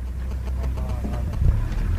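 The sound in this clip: Low, steady engine rumble from a safari vehicle driving through bush, droning continuously with a slight swell near the middle and no clear voices.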